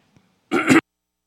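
A man clears his throat once with a short, loud rasping burst, preceded by a faint tiny click.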